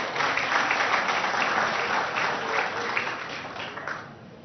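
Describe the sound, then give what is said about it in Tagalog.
A church audience applauds during a worship service, a dense, sustained clatter of many hands clapping together at a steady loudness that fades slightly at the end. “palakpakan natin ang Panginoon”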